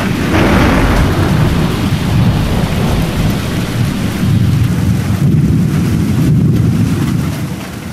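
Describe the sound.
A thunderstorm with a heavy rain shower: deep, rolling thunder rumbles over a dense, steady hiss of pouring rain, loud and constant across the whole stretch without any voices.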